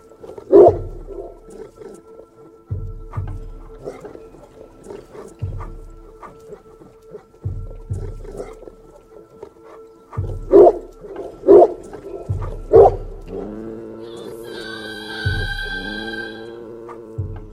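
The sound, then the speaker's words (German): A dog growling at the moon: short, low vocal bursts recur in a loose rhythm with a few sharper yips, then turn into higher whimpering tones near the end. “Banga knurrte den Mond an”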